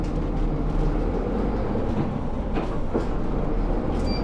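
A city bus in Kyoto pulling away, a loud, steady low engine rumble with road noise that holds evenly throughout, with no voices.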